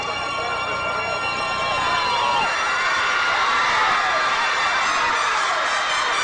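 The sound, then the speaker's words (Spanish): A large crowd shouts and cheers loudly and continuously, with shrill voices and whoops rising and falling above a dense, steady roar. “La gente se ha puesto a gritar.”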